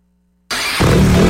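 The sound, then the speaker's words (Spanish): A CF Moto motorcycle engine starts out of silence, catching abruptly with a harsh mechanical roar, then stepping up to a louder, steadier running note partway through. “En CF Moto encontrarás motocicletas para cada aventura.”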